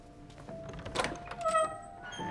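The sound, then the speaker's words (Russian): A door is opened, heard quietly as a faint rattle followed by a soft clunk, then a brief mechanical whine as the door moves. No voices are heard. “Рик открывает дверь.”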